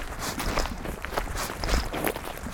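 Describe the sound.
Footsteps of a hike through the Spessart, a low German upland range, fall in a steady, rapid rhythm over a constant rustling, gritty noise.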